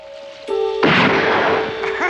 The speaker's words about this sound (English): Joe barbecues while Mackenzie and Frost blast bottles. Frost misses.